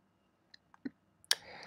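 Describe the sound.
A few faint, sharp mouse clicks, spaced apart and made while filling out an online diploma equivalence form. The last click is slightly louder and is followed by a low, steady hiss.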